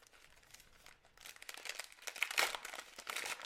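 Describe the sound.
A pack of UFC trading cards is ripped open with a crinkling, papery tear. Soft rustling at first swells into louder crackles of the wrapper, and no voices are heard.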